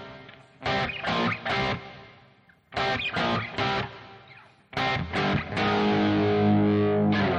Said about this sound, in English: I can actually go to something that sounds more like a distortion pedal.